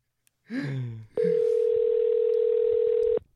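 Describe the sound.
A telephone call being dialed for a call-in: a brief voice speaks, then one steady mid-pitched tone holds for about two seconds before cutting off.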